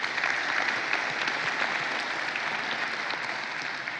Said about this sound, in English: For those of you who are in the room, would you please give our online television audience a big hand?